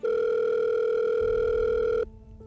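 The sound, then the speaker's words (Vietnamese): Steady electronic telephone tone as a woman places a call: one loud, unbroken note holds for about two seconds, then cuts off abruptly, leaving only a faint low hum. “Cô nhanh chóng ấn số, gọi ngay cho Kiệt.”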